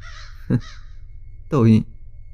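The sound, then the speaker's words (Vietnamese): Crows cawing outside a window: two harsh caws, a short one followed by a longer, rasping one, with a faint background hiss. “thấy ở bên ngoài những con quạ đang bay đến đậu kín cửa sổ phòng cô ta. Quạ là loài chim mang đến sự xui xẻo. Tại sao chúng bay đến đông như thế này?”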